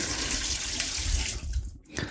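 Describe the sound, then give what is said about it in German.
Running tap water pours over a sieve as it is rinsed after being used for butter, during milk and lemon-juice preparation in a kitchen. A steady, loud splashing hiss continues throughout and thins out briefly near the end. “Habe ich jetzt eben gerade auch für die Butter genommen, darum spüle ich es nochmal ab.”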